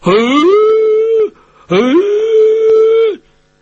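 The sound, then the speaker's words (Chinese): Wolves howl twice, each long cry rising quickly and then holding a steady tone before dropping off at the end, with a brief pause between the two; loud and clear, with no talk. “有的狼就要往那树上爬，仰着头往上边叫”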